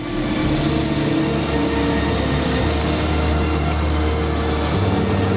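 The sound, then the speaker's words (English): Helicopter engine and rotor noise as the machine starts up, a loud, steady, continuous low drone with a broad rushing roar and no pauses. “Bob and his colleague get into a helicopter. They switch all the buttons to the on position, and the blades slowly begin to rotate.”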